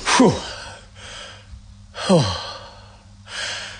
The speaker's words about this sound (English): Just everyone, just take a breath.